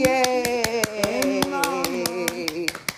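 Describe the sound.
A child plays with a noisy electronic toy that gives a steady warbling tonal melody. Rapid, regular clicks run through it from start to finish.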